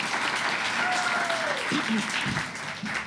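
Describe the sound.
Audience applause at a stand-up comedy show: a steady roar of many clapping hands, with a single falling whistle cutting through it. The applause fades slightly toward the end.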